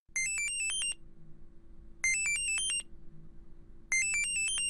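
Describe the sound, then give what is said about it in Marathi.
A phone ringtone for an incoming video call plays three bright, melodic bursts, repeating about every two seconds over a low steady hum. “अरे, सुखदाचा video call. अरे घे ना.”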